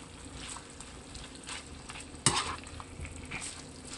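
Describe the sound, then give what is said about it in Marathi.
Chicken with coriander is stir-fried in a pan, giving a soft, steady sizzle with stirring scrapes and one sharp knock partway through. “कोथिंबीर टाकूया. परतून घेऊ.”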